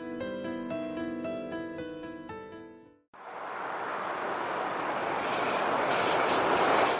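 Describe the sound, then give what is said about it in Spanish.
An approaching train builds into a broad, rushing rumble that grows steadily louder. It follows a short passage of melodic musical notes that breaks off abruptly. “El tren se acerca.”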